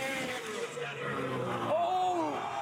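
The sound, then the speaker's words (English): A snowmobile engine with its throttle stuck, revving during a crashed freestyle jump attempt. It makes a loud, steady, high-revving whine, and in the second half its pitch bends up and then down. “Oh, has to jump away from the sled. Oh, look out! Uh-oh, throttle is stuck.”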